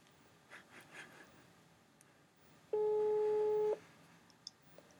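A telephone ringback tone sounds while calling someone: a single steady, hum-like electronic beep lasting about one second, loud against faint background noise and breathing.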